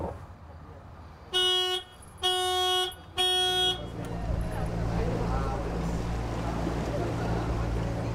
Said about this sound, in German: Mit 15 PS geht es erstmal durch den Rostocker Stadthafen.